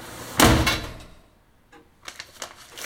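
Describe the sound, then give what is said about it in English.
A front door slammed shut: one loud, heavy bang that fades quickly, followed a moment later by a few faint, light clicks. “April slams the front door behind her”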